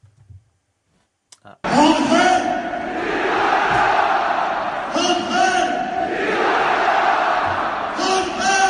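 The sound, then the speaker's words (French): PSG supporters at the Parc des Princes celebrating Di Maria's first goal: after a near-silent opening, a loud crowd roar bursts in and carries on, with voices shouting and chanting, for about seven seconds. “Vous avez été nombreux à poster des vidéos de l'ambiance hier soir au Parc des Princes. Écoutez les supporters à la 8e minute quand Di Maria a marqué le premier but.”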